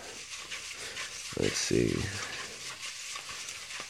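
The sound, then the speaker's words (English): Items being stirred around in a bucket make a soft, continuous rustling and shuffling. It stays faint throughout, with a short stretch of voice in the middle. “let's jump in the bucket again, and let's find out what our second episode of the week will be. Let's see. Like I said, get it all nice and stirred up.”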